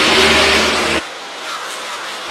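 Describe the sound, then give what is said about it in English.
A race car's engine rumbles as it rolls slowly down pit lane toward a pit stop: a loud, low drone for about a second, then a quieter, thinner hum. “C. Bell appears to be the first driver who is going to take service as he slowly pulls down in front of Wendy Venturini.”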